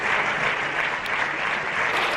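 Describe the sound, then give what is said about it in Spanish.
Sustained applause from the PP benches in the Spanish parliament, a dense, even wash of many hands clapping at constant loudness with no pauses. “Durante un minuto han sonado los aplausos de la bancada del PP.”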